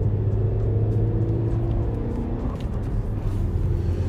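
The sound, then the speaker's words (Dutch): An electric cart accelerates smoothly with no gear shifts, giving a steady, loud low rumble and a faint whirring whine that hold evenly throughout. “Met een elektrisch karretje. Je ziet dat het gewoon elektrisch karretjes zijn. Ze zijn zo venijnig elektrisch snel.”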